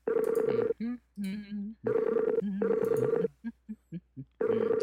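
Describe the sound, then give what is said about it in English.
An outgoing call's ringing tone repeats in several loud, patterned electronic bursts separated by short gaps, with a few brief blips in between. “looks like it's dialing? Let's see. Call. Let me try calling.”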